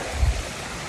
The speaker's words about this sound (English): So I might come away from the waterfall there, so it's not as loud.